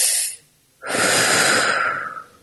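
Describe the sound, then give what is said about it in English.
One deep breath is drawn in briefly and audibly, followed by a short silence and then a longer, airy exhale that slowly fades out. “they've actually found that just even just taking a deep breath and letting it out”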